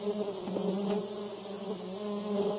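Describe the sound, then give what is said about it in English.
A swarm of bees buzzes in a steady, droning hum with a rich, layered tone, holding at an even level throughout with no voices. “I don't want to be swarmed with bees.”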